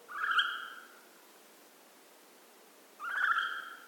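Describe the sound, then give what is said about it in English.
A hawk owl call used as a segment jingle: two loud, bright, piercing calls, each a steady high note with a higher overtone lasting just under a second, separated by about two seconds of quiet. “That's the sound of Swoop the Hawk Owl”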